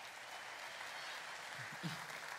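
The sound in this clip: Audience applause breaks out during a talk as a steady, fairly quiet wash of many hands clapping that holds even throughout without clear breaks.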